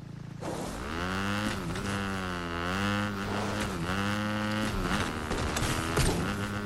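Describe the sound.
A car engine in the video game Fortnite as the car drives in reverse: a steady, humming engine drone that dips and wavers in pitch several times, continuous and without talk.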